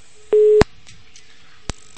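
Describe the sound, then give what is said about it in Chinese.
Telephone busy tone after a dropped call: one steady, mid-pitched electronic beep, then a few sharp clicks as the line cuts and resets. “啊，掉线了。”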